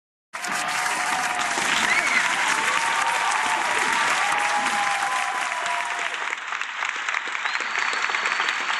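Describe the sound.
Soundboard applause effect: a dense, steady wash of clapping from a crowd that starts abruptly and stays loud and even for about eight seconds, thinning slightly toward the end.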